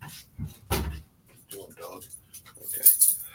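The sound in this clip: Dogs barking and whimpering at home as someone arrives, with door clatter and keys jangling in a few scattered bursts separated by quiet gaps.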